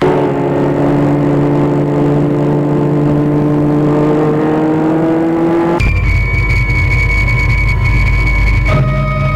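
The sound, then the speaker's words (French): A car driving off: a loud, steady engine drone that climbs slowly in pitch, then jumps abruptly to a brighter, higher whine as it speeds away. “Ils font sécher le pull et la chemise à l'arrière. La voiture file.”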